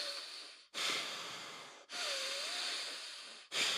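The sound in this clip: Yoga breathing through the right nostril with the left one sealed, done to prepare for exercise: long, rough, airy nasal breaths in a steady cycle, one carrying a faint wavering whistle.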